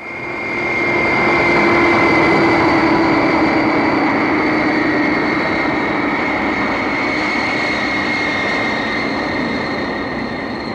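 An airplane drones steadily in flight, a loud constant engine roar with a sustained whining hum on top, holding evenly for about ten seconds and easing only slightly toward the end.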